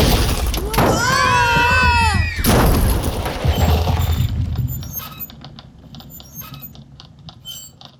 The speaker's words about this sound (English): Is it possible one of the volcanoes is erupting again? Sure, it's possible. Volcanoes can erupt for days. I was actually surprised when it stopped. Toothpick? The volcano starts to lava bomb!